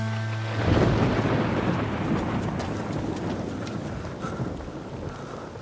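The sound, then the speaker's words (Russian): A thunderstorm outside: a deep rolling rumble of thunder over a steady hiss of rain. It swells loud early, then slowly eases off as the rain continues. “На улице идет гроза.”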